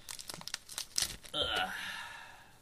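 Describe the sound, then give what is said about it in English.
Trading card packs are torn open with a quick run of sharp crinkles, rips and crackles of wrapper. A smoother, longer rustle follows and carries to the end. “Let's fucking open some cards.”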